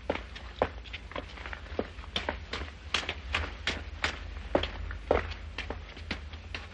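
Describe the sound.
Footsteps walking across a salon toward a staircase in a 1946 drama film: many steady, fairly faint steps in an even rhythm, a couple landing louder near the end, over a low background hum.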